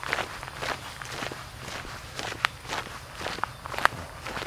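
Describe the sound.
Footsteps of a person walking outdoors, a steady run of many crunchy, scuffing steps at an even pace, with a few sharper, louder footfalls standing out and no talking.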